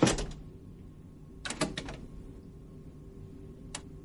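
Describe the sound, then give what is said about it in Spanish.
A door closing in a hallway: a soft thud at the start, then a quick cluster of latch clicks and knocks, and one last faint click near the end, with hushed quiet between. “En el pasillo Bob está en la puerta. Titubea. La cierra.”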